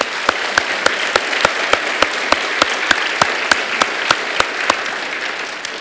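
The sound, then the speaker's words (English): Church audience at First Baptist Church Matthews applauding to welcome a guest: dense, sustained clapping, with one loud clap standing out at a steady, evenly spaced rhythm. “Would you join me in welcoming her today?”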